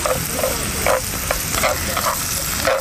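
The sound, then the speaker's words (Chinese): Carrots stir-fry in a pan with a continuous sizzling hiss, broken by brief bursts of stirring and scraping. No one speaks. “对，先要下红萝卜炒。”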